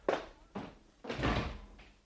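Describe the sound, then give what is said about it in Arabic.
A door shut in a historical Arabic radio drama, a few heavy wooden thuds, the third longer and fuller, the last fainter. “أغلق الباب يا غلام. يا سيدتي إن أخاها. أغلق الباب.”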